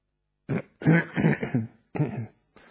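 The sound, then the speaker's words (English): A person clears their throat to shift phlegm from allergies, making a few rough, guttural bursts separated by short pauses. “Then checking my throat, making sure any phlegm from allergies or whatever is not causing a problem.”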